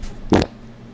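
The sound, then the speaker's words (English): A fart trapped in a microphone wind guard gives a single short, muffled burst, loud against an otherwise quiet background and lasting only a fraction of a second. “There's a wind guard on the microphone that your fart is getting trapped in.”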